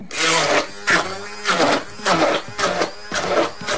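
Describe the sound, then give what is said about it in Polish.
Blender puréeing cooled pumpkin in a bowl, with a loud, buzzy motor whir that comes in a series of short, uneven pulses with brief dips between them. “Przestudzoną dynię wkładamy do miski i miksujemy na gładko.”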